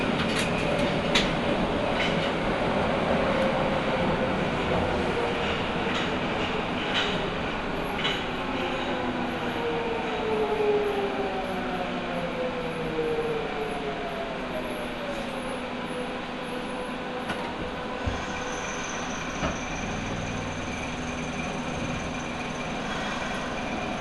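A Nagoya Municipal Subway Higashiyama Line train running underground gives a steady, loud rumble with rattling wheels and a faint tonal motor whine that shifts in pitch, continuous throughout with no voices.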